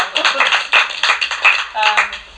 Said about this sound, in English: So everybody applaud you.